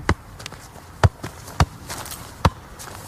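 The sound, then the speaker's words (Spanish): A football is juggled keepy-uppy style, with a few dull, thudding touches at an uneven rhythm and fainter taps in between against a quiet background. “Hace toques de balón.”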